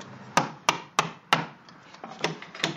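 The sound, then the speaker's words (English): Crisp woody scraping strokes of a knife held sideways, peeling the outer band off wood clamped in a split bench vise for basket-making: four sharp, evenly spaced strokes, then a run of softer ones, with no talk. “Holding his knife sideways, he peels the outer band off of the wood. Each of these steps narrows the wood so it can eventually be woven into a basket.”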